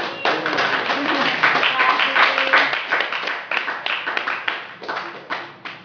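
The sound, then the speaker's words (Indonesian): Applause from an audience at a community history museum workshop after a presentation, dense, steady clapping that continues throughout and tapers slightly at the end. “Tepuk tangan dulu buat Wowo.”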